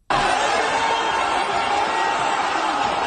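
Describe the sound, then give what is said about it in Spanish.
A crowd queues at a Gaza Humanitarian Foundation food distribution point in Gaza. Dense, overlapping chatter and murmuring from many people starts abruptly and stays steady and loud. “Este es el sonido de las colas de la Gaza Humanitarian Foundation, la agencia financiada por Estados Unidos e Israel, que se ha convertido desde mayo en la principal distribuidora de la poca comida que entra en Gaza.”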